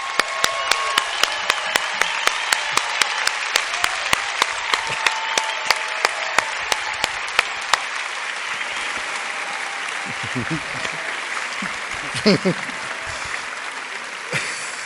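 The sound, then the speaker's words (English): A church audience applauds a guest with dense, steady clapping. A sharp, rhythmic clap pattern drives the first eight seconds, then the applause thins out and voices rise through it. “Come on, let's give him a big hand.”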